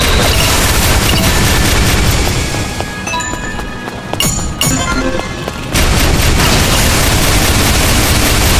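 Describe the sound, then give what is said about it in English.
A Gigabolt laser weapon firing in a video game: a loud, dense, continuous barrage that thins out midway, then surges back at full force. “Man, that Gigabolt laser just mows them down.”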